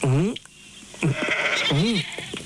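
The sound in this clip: Sheep bleat in three wavering, harmonic calls with short gaps between them, loud and clear against a steady background.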